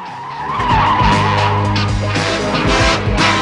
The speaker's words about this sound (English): Their car hits another side on.